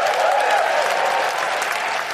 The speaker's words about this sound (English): you're only applauding yourselves. It's your money, gang. You're applauding yourselves.